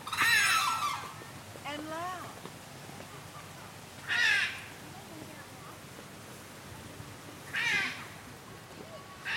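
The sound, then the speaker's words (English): Hyacinth macaws and a red-crowned crane calling at a zoo: a few loud, harsh, raspy squawks spaced several seconds apart, with softer calls between them over steady low background noise. “Those are hyacinth macaws. The higher pitched noise is a red-crowned crane.”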